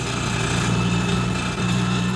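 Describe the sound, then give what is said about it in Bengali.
An auto-rickshaw engine runs on a dirt road, the vehicle lighter after dropping off its load of goods: a steady, loud, unbroken mechanical drone with a buzzing low hum and no voices. “মাল delivery দেওয়ার পর কিছুটা হালকা হয়েছে অটোটা”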